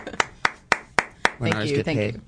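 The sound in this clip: Hand claps from an audience at a live show ring out as five sharp, evenly spaced claps, followed by a person talking.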